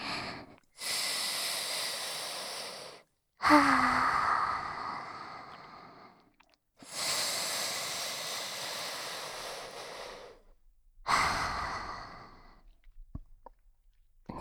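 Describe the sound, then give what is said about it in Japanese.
Four long, slow deep breaths, each a drawn-out airy rush lasting a few seconds and separated by short silent pauses. “一度深呼吸をした方がいいよ。”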